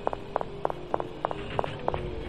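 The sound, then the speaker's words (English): Footsteps of a character walking forward into a room in a video game, seven evenly spaced crisp steps at a steady pace over a low hum, with no talk. “Okay, so let's walk forward into the second room.”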